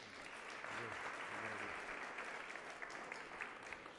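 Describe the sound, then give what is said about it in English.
Church audience applauding a new member who has just received his membership certificate; steady, dense clapping sustained for the whole stretch, with a faint voice briefly underneath early on. “Julle het last week vir die mense hande geklap en geluk gewens en so on. You can do the same to Martin.”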